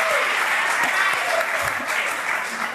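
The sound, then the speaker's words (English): Audience clapping for Alaska as states are called out, a dense, even wash of many hands applauding that holds at a steady loud level throughout. “Yeah, let's clap for Alaska.”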